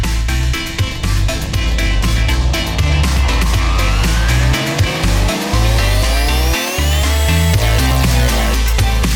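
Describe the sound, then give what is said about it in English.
Synthesized racing-car engine sounds from a Super Nintendo racing video game: loud, buzzy electronic tones with repeated rising pitch sweeps like gear-by-gear revving, over pulsing low synth tones, continuous with no voices. “this week we are playing Top Gear on the Super Nintendo”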